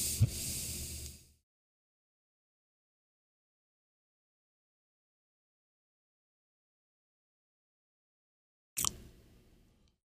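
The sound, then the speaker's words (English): A soft, airy hiss of a draw on a cannabis vape cartridge lasts about a second, then long silence, then a second brief breathy burst near the end. “again, the vapor and the overall inhalation of this strain, it's pretty smooth, smoother than the other ones, than the $10 cart folks,”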